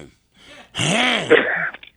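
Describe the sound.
A man clearing his throat: one rough, voiced rasp lasting about a second, preceded by a faint brief sound and trailing off in a couple of short clicks.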